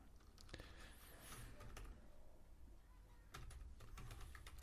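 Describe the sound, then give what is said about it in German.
A password is typed on a computer keyboard: faint clicking keystrokes in short irregular bursts, with a brief lull before a final cluster of key taps. “Ich muss hier mein Security, Super Security Passwort eingeben, sonst komme ich nicht auf die Webseite.”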